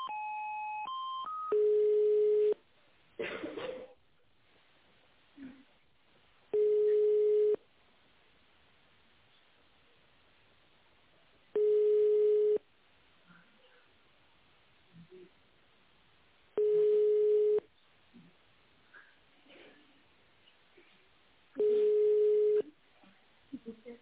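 Telephone line tones play while a call is being transferred: quick stepped beeps at the start, then five long, steady, mid-pitched tones spaced evenly apart with faint noise between them.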